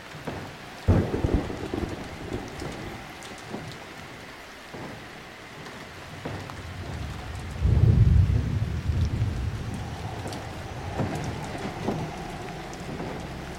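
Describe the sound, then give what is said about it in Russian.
Steady rain hisses and patters throughout, with low rumbles of thunder rolling beneath it. One rumble swells louder midway, and there is no talk. “Начался дождь.”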